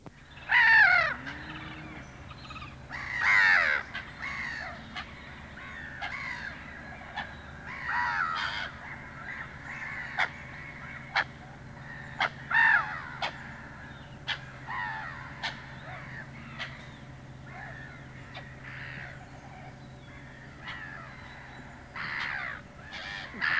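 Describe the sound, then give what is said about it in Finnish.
Harsh, grating calls of black-headed gulls, repeated many times at irregular intervals over a steady low background hum, with several louder squawks standing out. “Naurulokki.”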